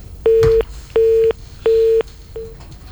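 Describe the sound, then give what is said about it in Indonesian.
A busy tone sounds after a telephone call is cut off: three steady, mid-pitched beeps with even gaps, then a fainter fourth beep, over low background hiss. “mohon maaf terputus, kita akan hubungi kembali untuk Ibu Dewi”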